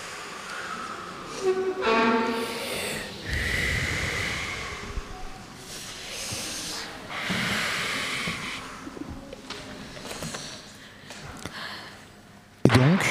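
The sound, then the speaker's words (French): A group of people takes deep breaths together, producing soft, broad airy swells that rise and fade a few times in slow succession, with no talk over them. “on va prendre trois grandes respirations, même si ça prend du temps d'antenne. C'est important pour nous.”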